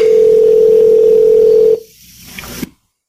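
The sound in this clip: A steady, loud telephone dial tone holds for about one and three-quarter seconds at the start of a phone call, then cuts off abruptly, leaving a few faint, quiet sounds before silence.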